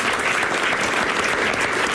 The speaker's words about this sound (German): Ein Applaus bitte.